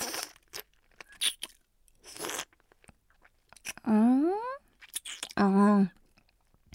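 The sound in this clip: Biting and crunching into an ice cream bar: a few short, crisp crunches and chewing noises, then two drawn-out voiced sounds from a person.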